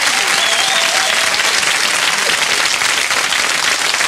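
An audience applauds to welcome members of a music group as guests on a show, with loud, dense, unbroken clapping throughout.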